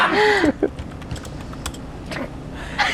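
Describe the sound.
Someone types a message on a computer keyboard, producing quick, irregular key clicks and taps at moderate loudness. A voice is heard briefly at the start.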